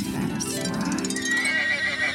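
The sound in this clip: A horse whinnies in one loud, drawn-out neigh lasting about two seconds. The call is shrill and wavering, with no talk over it.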